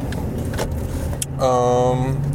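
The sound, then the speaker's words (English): Car driving at night, heard from inside as a low, steady engine rumble; partway through, a smooth electric whirring hum joins in and carries on to the end. “Again, I'm driving around in my car. It is 2:21 in the morning.”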